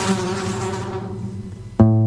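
A swarm of flies buzzes in a dense, layered drone that thins and fades over about two seconds. A steady low tone then cuts in abruptly at the end.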